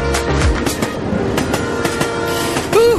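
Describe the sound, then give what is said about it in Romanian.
A train runs on its rails as the carriages clatter, making a loud, steady rumble with rhythmic metallic clacks throughout. “La linia 1. Poftiți în vagoane pentru cea mai plăcută călătorie a verii.”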